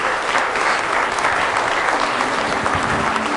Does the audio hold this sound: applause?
yes